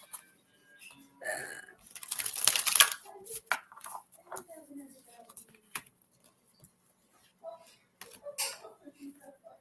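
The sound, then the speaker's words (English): Oracle cards are shuffled and scattered, with a dense rustling, flapping burst early on followed by scattered light taps and slides while a person talks. “The cards are just going everywhere tonight.”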